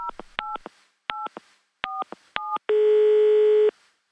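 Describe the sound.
A telephone call is being placed: five short two-tone keypad beeps come in an uneven rhythm, followed by one long, steady ringing tone that lasts about a second, with no voices.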